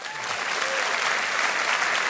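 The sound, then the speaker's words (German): Applause at the Deutscher Radiopreis awards ceremony in Hamburg, a thick, continuous patter of many hands clapping at a steady, fairly loud level throughout. “Applaus beim Deutschen Radiopreis.”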